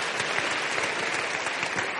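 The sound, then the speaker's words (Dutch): Applause from an audience for event volunteers, a dense, continuous wash of clapping hands at moderate level with no voices over it. “Dus misschien moet je even een dik applaus voor al die vrijwilligers achter de schermen, voor de schermen.”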